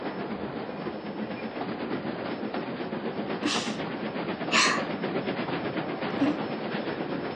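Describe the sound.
A train runs along the rails as it nears a station, giving a steady rumble with a continuous clattering texture and a couple of brief hissing bursts partway through.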